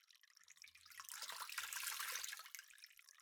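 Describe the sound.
Cold water pours to rinse an arm down to the elbow, a soft splashing stream that swells through the middle and then eases off, with no voices.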